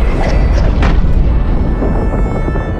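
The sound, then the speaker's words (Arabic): Thor hurling his hammer Mjolnir at towering mountains, rendered as a loud, deep roaring rumble that holds steady without clear breaks, like a sustained thunderous blast. “فقرر أن يتمرن على رمي ميولنر نحو الجبال الشاهقة”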